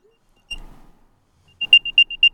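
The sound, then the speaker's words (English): Apple AirTag tracker alert triggered from the Find My app and held about two inches from the microphone: one tone with a decaying tail, then a quick run of five short, high-pitched electronic beeps. “here's my current AirTag one, which sounds like this.”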